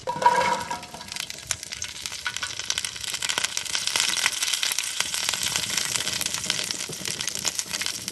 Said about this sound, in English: And the green beans are going into the pan. And here they go, into the pan.